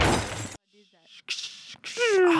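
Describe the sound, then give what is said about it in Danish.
A loud smashing, breaking crash bursts out for about half a second, then gives way to quieter, scattered sounds. “Knusing, knusing.”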